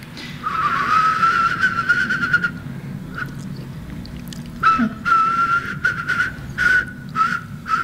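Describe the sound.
A person whistles an imitation of a whimbrel's call. A long trilled whistle holds near one steady pitch, then after a pause comes a series of short repeated whistled notes.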